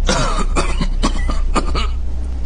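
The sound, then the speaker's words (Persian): A patient who has had a cough for several days, with chest pain on coughing, lets out many sharp dry coughs in quick succession over a steady low hum. “از کی سرفه میکنی؟”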